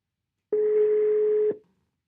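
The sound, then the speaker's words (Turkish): Telephone ringing tone on an outgoing call: a single steady mid-pitched beep lasting about one second, heard alone and followed by silence. “Bugün Canan'ı arıyorum.”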